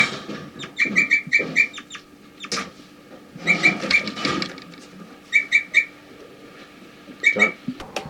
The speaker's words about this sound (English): We're recording 4-3, giving flight calls.